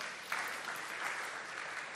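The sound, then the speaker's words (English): Hands clapping across a church audience during a sermon, a dense, fairly soft patter of many claps that continues evenly through the whole moment. “Can you clap your hands for Jesus, somebody?”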